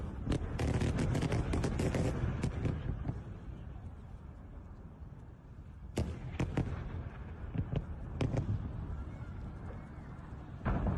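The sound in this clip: Explosions by a roadside, with debris smacking the dirt, come as a dense barrage of sharp, loud bangs and crackling. Bursts cluster at the start, ease off, then return in a few strong cracks.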